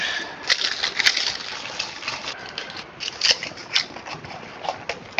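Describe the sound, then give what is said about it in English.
Sticky tape crackles and rustles as a small T4 Torx screw from a device repair is stuck onto a strip of tape inside a cup, giving crisp clicks and scrapes with no voices. “I think I'm just gonna put this on a piece of tape and sort of tape it on the inside of the cup so I know that's the T4.”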